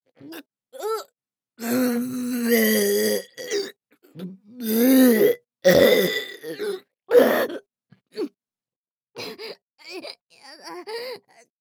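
Loud, harsh burping comes as many croaking, voiced bursts of uneven length, some long and drawn out, others short, separated by silent gaps.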